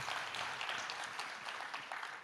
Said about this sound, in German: All right, let's give all of them a big round of applause.